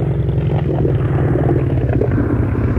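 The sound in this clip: A boat engine being throttled down gives a loud, low, steady rumble with a faint rattle, running evenly from start to finish with no talk over it.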